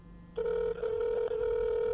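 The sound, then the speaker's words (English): Ringing tone on an unanswered phone call: after a brief quiet start, a steady electronic tone sounds alone and holds to the end, with two brief dips. “Shocker, Tom's not picking up his phone.”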